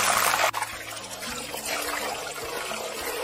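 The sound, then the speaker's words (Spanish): Slightly wet potatoes fry in hot oil for a Spanish potato omelette with onion, giving a continuous hissing sizzle with scattered crackles and spatters. “sabes que está un poquito mojada y por eso están saltando. Va a ser una tortilla de papa con cebolla. Vamos a dejarla que se fría esto bien.”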